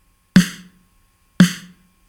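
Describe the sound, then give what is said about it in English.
Snare drum struck twice with a compressor set to a 1-to-1 ratio, so the hits are left effectively uncompressed: each is a sharp, bright crack with a short ringing body that dies away quickly, about a second apart. “That's the sound of the snare drum.”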